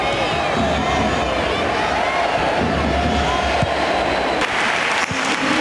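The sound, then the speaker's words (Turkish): Spanish supporters applaud Luka Modrić as he comes on in a Spain versus Croatia football match, a sustained, loud stadium roar of clapping and cheering that holds steady throughout. “İspanya tribünleri ve teknik direktörü Luis de la Fuente ayakta alkışladı.”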